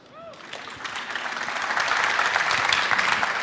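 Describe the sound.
An audience applauds to welcome a speaker at a talk on a self-written X11 window manager. The clapping starts faint, swells over the first couple of seconds, then holds as a steady, dense patter.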